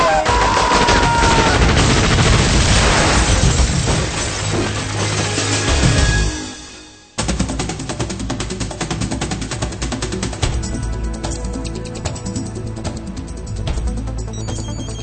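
Gunfire in dense, rapid, rattling bursts, loud and continuous, breaking off briefly partway through before resuming at a somewhat lower level.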